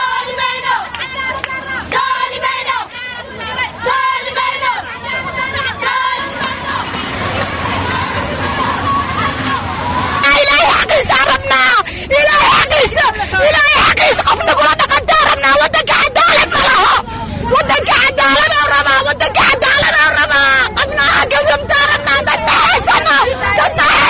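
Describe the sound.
Protesters in Mogadishu, mostly women, shout slogans against injustice. Many voices overlap in a dense, loud crowd roar that swells sharply partway through and stays intense to the end.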